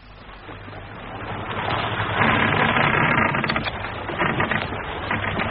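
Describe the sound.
A boat engine idles with a steady, low rumbling drone that grows louder after the first couple of seconds and then holds level.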